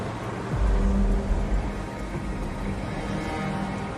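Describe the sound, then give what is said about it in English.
A car speeds off down a road, its low engine rumble swelling about half a second in and then holding as a steady, broad roar. “Earlene speeds off down the road.”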